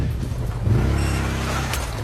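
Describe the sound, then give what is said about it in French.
A quad bike's engine drones steadily as it arrives to evacuate a wounded soldier in a war zone. The low, rumbling motor sound is continuous and fairly loud for about two seconds, with no speech. “Le quad surgit enfin.”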